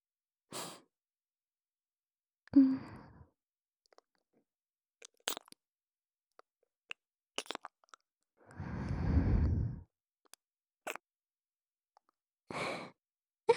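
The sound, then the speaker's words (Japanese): ASMR ear kissing close to the microphone: a few soft, wet smacks and clicks and breathy bursts, scattered between stretches of near silence. “お耳キスしちゃった。”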